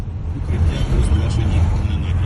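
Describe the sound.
Car engines rumble low and steady in a long queue at petrol stations, where hundreds of people wait their turn to fill up, with a faint murmur of voices over the continuous idling drone.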